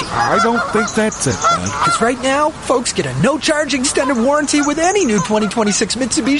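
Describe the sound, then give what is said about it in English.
Geese honking repeatedly in rough, nasal bursts, heard throughout under people talking. “Pretty sure it's geese, but look, you can see them.”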